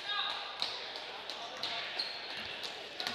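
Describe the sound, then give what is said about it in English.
A basketball dribbled on the court during a boys' high school game between Exeter and Elizabethtown: a steady run of repeated bounces with a regular beat, heard under a commentator's talk. “Pascal has the dribble, hands it off to Saenz.”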